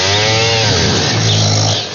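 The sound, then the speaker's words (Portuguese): A sleeping person snores loudly with a rough, buzzing rattle likened to a chainsaw. The snore is a continuous, harsh drone with wavering pitch, heard alone. “Vamos ver quem ronca mais. Ele não acorda, não. Não adianta.”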